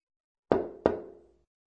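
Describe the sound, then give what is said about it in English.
Two heavy, resonant thuds of a person's footsteps climbing stairs, about a third of a second apart, each ringing briefly before it fades, with nothing else heard. “This is the sound of a person going up the stairs.”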